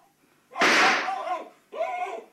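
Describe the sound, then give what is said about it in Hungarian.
A rifle shot fired at an animal hiding under a bed: one sudden, loud blast with a sharp onset rings out for about a second, then a second, shorter tonal burst follows. “Vegye a puskát. Most vegye célba. Most lője meg.”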